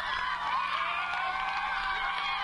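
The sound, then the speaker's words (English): Crowd cheering at the finish line of a school race, with many overlapping voices shouting and calling out together in a steady, fairly faint roar. “Teachers watching at the end, the cheers at the finish line.”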